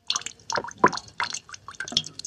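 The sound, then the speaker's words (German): A dripping water tap, giving many irregular liquid plops and short gurgles, each with a bright, watery ring and some close together, at a moderate level with no talk. “Da kontere ich mal mit dem Tropfen eines Wasserhahns, Nummer 20.”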